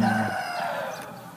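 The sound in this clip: Free-range chickens in a large organic egg-laying coop, calling and clucking. Their voices overlap in a continuous, tonal chorus with no gaps and no talking.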